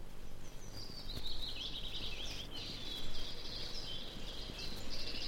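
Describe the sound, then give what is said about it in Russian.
A goldcrest sings a high, thin, rapid twittering song in repeated short runs, faint against a steady wash of background noise. “А самое маленькое гнездо у желтоголового королька. Слышите, как он поет?”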